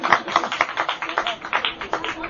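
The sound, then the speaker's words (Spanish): Audience applause for guests from Majalrayo, heard as rhythmic clapping with many sharp, evenly spaced claps beating in a quick, steady pulse. “Un aplauso para ellos, que son de Majalrayo.”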